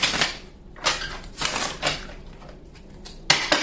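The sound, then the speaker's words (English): A deck of tarot cards is split and shuffled, giving a few crisp, papery bursts of riffling and slapping. Short quieter gaps separate the bursts, and the last one is the sharpest. “What is it that Aries needs to hear when I split the deck”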